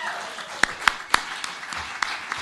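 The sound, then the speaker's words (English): Live audience applause as a performer is called up to the stage: a steady wash of clapping with a few sharper, louder claps standing out. “Everybody, a nice round of applause”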